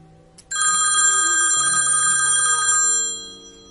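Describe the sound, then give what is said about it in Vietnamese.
A mobile phone rings in a trouser pocket, a bright, shimmering electronic ringtone that starts suddenly, holds for about two and a half seconds over a low sustained backing tone, then fades out. “Điện thoại trong túi quần của cậu vang, Ninh Dương phải đi đến bên kia mới lấy được nó.”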